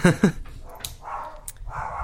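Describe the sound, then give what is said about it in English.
Dogs bark twice in quick succession at the start, sharp and loud, followed by quieter, softer sounds. “Oh man, my dogs are barking. There go the dogs.”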